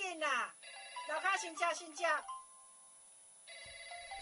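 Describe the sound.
A phone ringback tone plays as a meat vendor at a market stall places a call. A man talks in the first half, a faint steady beep follows, then a brighter ringing tone starts near the end.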